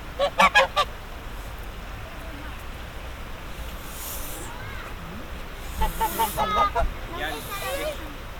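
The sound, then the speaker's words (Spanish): A duckling calling in a field recording, a quick burst of a few honking, nasal calls at the start, then a quieter stretch, then a second cluster of calls, with people's voices nearby. “Ya viene, ¿eh? Hola. Patito. Mira.”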